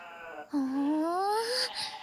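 Loud bleating from a farm animal eager for concentrate feed, a mixed grain and corn ration, heard as one long, wavering call that climbs steadily in pitch after a shorter cry.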